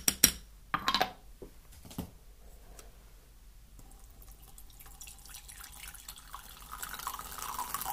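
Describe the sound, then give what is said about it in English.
A spoon stirs a cup of green tea, giving a few quick, bright clinks near the start before fading to a faint, soft background. “I think I need some green tea already. Let's give this a bit of a stir.”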